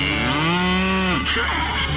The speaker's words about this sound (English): What's that, little cow?